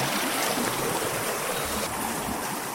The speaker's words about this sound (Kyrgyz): Кара Кыштак Кызыл Кыя каналынын бу бөлүгүнөн жайдын күнү секундасына орто эсеп менен 1.8 куб метр суу агып турат.